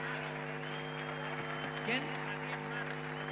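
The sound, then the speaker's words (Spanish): Steady applause from an audience at a school event for students from third to sixth year who have just performed. A low, sustained hum runs beneath the clapping throughout. “Pido un gran aplauso para cada uno de ellos.”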